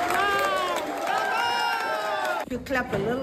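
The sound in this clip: An excited crowd of colleagues cheers and whoops to celebrate a prize award. Loud high voices and shouts overlap, then briefly dip before another burst of cheering near the end.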